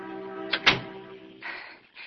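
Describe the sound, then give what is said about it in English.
A door closing, heard as two sharp knocks in quick succession over a steady low tonal hum, followed by softer breathy noise. “Alec's friend, and the door is closing behind her.”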